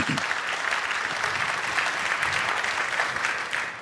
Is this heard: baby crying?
no